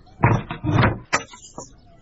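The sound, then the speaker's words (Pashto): Someone banging on a door: a few heavy, irregular thumps and knocks in quick succession, loud against a quiet background. “دا څوک دې دروازه دې ماته کړه؟”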